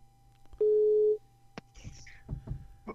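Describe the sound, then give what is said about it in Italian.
An outgoing call's ringback tone: one steady low beep lasting about half a second, then a sharp click and a few faint, brief sounds. “Vediamo se risponde. Suona, suona, ci siamo.”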